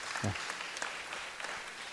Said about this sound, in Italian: quindi insomma io un applauso glielo farei per questa cosa, insomma.